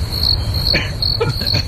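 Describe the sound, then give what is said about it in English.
Crickets chirping, added as a sound effect: rapid, high-pitched trills in short repeated bursts, steady and fairly loud throughout. “Crickets, I think, are added by editorial.”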